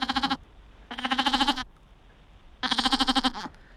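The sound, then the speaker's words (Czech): Three wavering, nasal bleats from a lamb, each about half a second long and separated by quiet pauses, fairly clear and alone. “Tak prosím tě, já ti to prozradím, bylo to jehně. Bylo to jehně, tedy mláďátko od ovečky. Jo, jehňátko. Tak vydává takový zvuk.”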